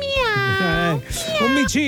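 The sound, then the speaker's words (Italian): Kitten meowing: a few drawn-out, high, wavering cries follow one another closely, loud and clear with short breaks between them. “Un gattino, bravi.”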